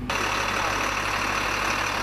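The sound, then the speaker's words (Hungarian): Steady engine rumble of the first vehicles rolling onto the newly opened Kolontár bridge, a 15-metre, 20-tonne-capacity span built by soldiers. The motor noise is continuous and even, with no distinct separate passes. “Az első járművek a ma átadott kolontári hídon.”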